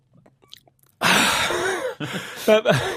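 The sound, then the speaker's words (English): After holding his breath for 49 seconds, a man takes one long, loud, breathy gasp for air following a quiet start, and then begins to talk. “49 seconds. I was just holding my breath, right.”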